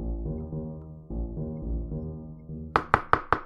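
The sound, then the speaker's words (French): Four sharp, evenly spaced knocks on a wooden door in a children's fairy tale, a wolf rapping at a wooden house, coming right after soft, gentle tonal music. “À peine celui-ci eut-il refermé la porte que le loup frappa.”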